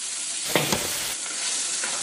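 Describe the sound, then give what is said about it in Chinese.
Rice cakes are stir-fried with eel and pork in a hot wok and coat in a dark sauce. A steady, bright sizzling hiss runs throughout, broken by a couple of sharper stirring scrapes, with no voices. “现在可以加入我们今天辛勤做的这个燕子粑了。 燕子粑一下锅就裹上了一层酱色的外衣，”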